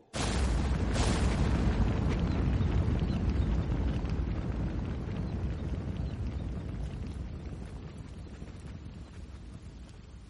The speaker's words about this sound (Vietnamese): Bầu trời đột nhiên vang lên tiếng sấm, theo đó là tiếng mưa lộp bộp.